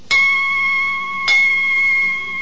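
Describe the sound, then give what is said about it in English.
The Bow church bells of London ring two clear strikes about a second apart. Each strike is a bright clang that settles into a long, steady humming tone lasting until the next. “Hark! Oh, bells are ringing six.”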